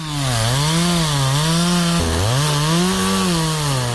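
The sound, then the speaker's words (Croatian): A chainsaw cuts through old railway sleepers, its loud, steady engine whine wavering in pitch as it bites into the wood. The tone dips briefly midway, then revs back up. “Proizvodila ga je motorna testera u rukama čovjeka koji je pilao stare železničke pragove.”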